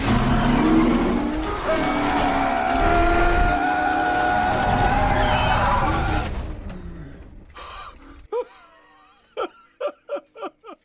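A race car engine roars at full throttle on a test drive, a loud, sustained rush that holds for about six seconds before fading away.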